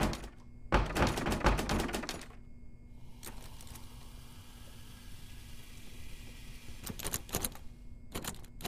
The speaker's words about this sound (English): Am I locked in here? No. No, this has to... This door has to open. This is the door that I came in through.